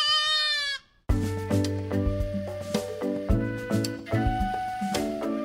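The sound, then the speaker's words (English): A baby goat bleats once, a single high, quavering cry lasting under a second, followed by rhythmic music. “Today's Name That Sound is a baby goat. Grown-up goats sound like this. But the babies sound like this.”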